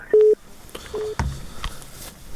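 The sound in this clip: A telephone is being dialed, with a few short, steady electronic keypad tones separated by brief gaps over a low background hiss.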